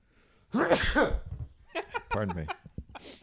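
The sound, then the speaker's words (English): A sudden sharp human sneeze bursts out, followed by a few brief vocal sounds and short breaths. “Pardon me. Oh no, it's okay. You're trying to sneeze the Kirk Cameron out of you, right?”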